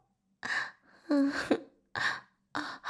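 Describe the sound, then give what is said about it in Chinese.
Heavy, breathy gasps from a woman, four distinct bursts separated by short pauses, some carrying a faint voiced tone, loud and close with no talking. “呼吸急促的不行”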